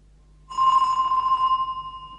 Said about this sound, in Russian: Спустя некоторое время у входной двери раздался звонок.